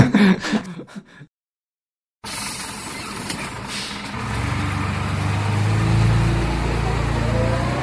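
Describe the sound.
Ride aboard a Limoges STCL city trolleybus or bus. A short voice comes first, then a brief silence. After that a steady vehicle rumble builds into a louder, deeper engine drone toward the end.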